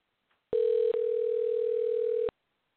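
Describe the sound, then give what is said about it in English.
A steady electronic telephone tone, apparently a ringback after dialing, sounds loud and unbroken for almost two seconds apart from one tiny dip near its start. “All right, well, here goes the dialing.”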